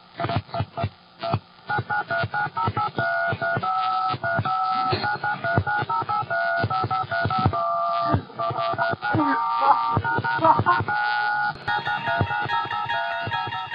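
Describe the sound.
Touch-tone telephone keypad tones played as a tune, a long rapid sequence of clipped dual-pitch beeps in shifting melodic patterns, steady and fairly loud, with brief gaps and a few tones sustained longer near the end.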